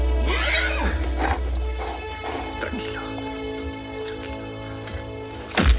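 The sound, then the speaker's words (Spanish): Horses ridden by approaching soldiers: a loud whinny near the start over a steady low rumble of movement, with a sharp, loud burst of sound at the very end. “Otros soldados se acercan al galope.”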